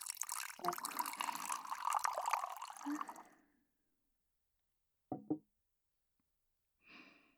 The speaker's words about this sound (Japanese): かぐわしい茶葉の匂いが注ぎ口から漂ってきた。ならばあとはコップに注ぐだけ。